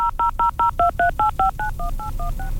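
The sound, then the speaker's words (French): Touch-tone telephone dialing: a quick, evenly paced run of many short dual-tone beeps. The first several are crisp and separated by brief gaps, and the later ones are softer and run closer together. “On va tenter de joindre Benoît.”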